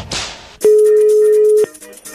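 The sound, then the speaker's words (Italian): A single steady telephone tone, about one second long, sounds after a call line drops. It is loud and even over a noisy background. “è caduta la linea?”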